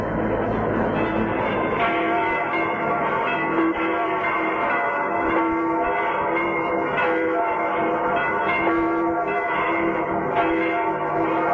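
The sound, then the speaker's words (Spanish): The Vatican's church bells pealing: a dense, continuous wash of overlapping ringing tones, loud and sustained throughout without pauses. “Las campanas del Vaticano han empezado a repicar.”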